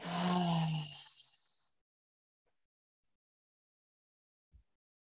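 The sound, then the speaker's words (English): A group exhaling together through the mouth: one long, airy, breathy release with a groaning, voiced edge. It fades out after well under two seconds, leaving near silence. “Big collective breath in together. Exhaling through the mouth, letting it all go.”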